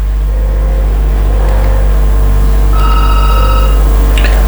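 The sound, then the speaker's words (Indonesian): Telephone ringing: short, high electronic ring bursts riding over a loud, constant low rumbling noise, with no talk. “Baiklah, saya ke telepon dulu kalau begitu ya.”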